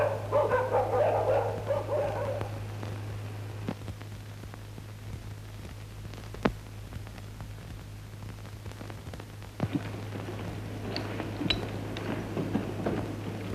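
A dog being treated with a silver needle gives a few barks and whimpers, loudest at the start and then fainter, with sharp clicks in between.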